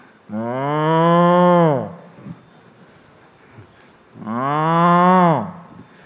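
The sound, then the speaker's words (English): A cow mooing twice, each moo long, loud and drawn out for over a second, swelling and then tailing off, with a quiet pause between the two calls. “And then the cow began,”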